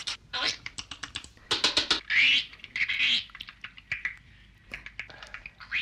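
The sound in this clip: A voice imitates the drumming of a great spotted woodpecker with many rapid, dry clicks and taps in quick bursts, bright and crisp, with no other speech.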